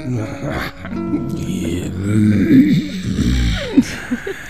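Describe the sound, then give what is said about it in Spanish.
A voice imitating a growl, the gravelly vocal effect used in singing, voiced and raspy with a wavering pitch and a few rough swells that grow louder toward the end. “Es un gruñido.”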